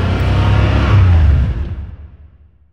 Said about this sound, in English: I mean, it is unmistakable. Nothing else sounds like this. You don't want to have the radio on. You need to be able to listen to that engine.